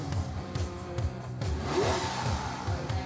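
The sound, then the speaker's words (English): A Lamborghini engine revs in a sustained, mid-pitched roar with pulsing low rumbles underneath, moderately loud and steady throughout, with no talk. “Here we go. There's that rev.”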